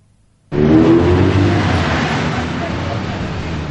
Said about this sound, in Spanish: De día los coches circulan en ambos sentidos por la larga avenida a la que asoma el jardín de la gran casa de las niñas.